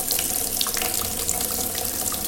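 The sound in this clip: Water gushes from a tap to fill a birthing bathtub in a maternity ward, a loud, dense, continuous splashing hiss with no pauses.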